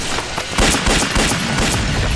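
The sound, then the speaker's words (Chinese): Heavy gunfire erupts in a wartime skirmish with an enemy patrol: many overlapping shots and booms form a dense, continuous, loud crackle with no voices. “我开枪把他们吸引过来了。”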